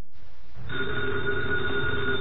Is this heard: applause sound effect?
no